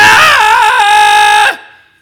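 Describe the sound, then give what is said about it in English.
A voice imitates a terrified man screaming on a boat: one sustained, wavering high cry that holds loudly for about a second and a half, then cuts off and trails away. “One guy picks up an oar and he warns the figure, oh, we got oars! Stay back! One guy's just screaming,”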